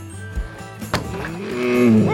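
A cow lows as it staggers to its feet: a sharp knock comes first, then one long, droning moo that swells louder toward the end.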